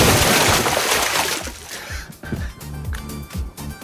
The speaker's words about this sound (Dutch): Francine Stolk was dat, verslaggever vanuit het zwembad van Pernis.